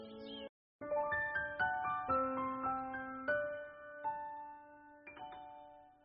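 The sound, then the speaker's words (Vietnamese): A school bell chime sounds as a run of bright, ringing tones. Each is struck sharply and sustains in a long decay, forming a short melody with no voices. “Tiếng chuông reo, tất cả học sinh chạy về lớp của mình.”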